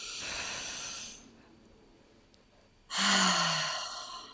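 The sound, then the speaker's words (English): Two long, breathy rushes of air make up a deep breath, each a soft sustained hiss separated by a short quiet pause, with no talking. “Okay, in a moment, let's take a deep breath.”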